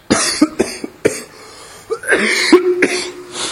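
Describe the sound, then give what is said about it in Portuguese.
A violent coughing fit: several loud, harsh cough bursts, some in quick succession. After a short pause comes a rougher, more drawn-out stretch of hacking coughs, with no speech. “É uma tossida violenta aqui.”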